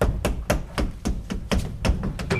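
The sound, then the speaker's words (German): Rapid knocking on the back panel of a wardrobe: many quick, hollow raps in an uneven rhythm, fairly loud and continuous for a couple of seconds, with no voices. “klopfen Sie die Rückwand des Schrankes ab hier, ja?”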